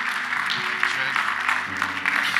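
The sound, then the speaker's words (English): A church audience claps together to welcome a pastor at a morning service, a dense, steady wash of applause with low sustained tones running beneath it. “If we can, let's put our hands together this morning. Let's welcome Pastor Chris as he brings a powerful word for us this morning.”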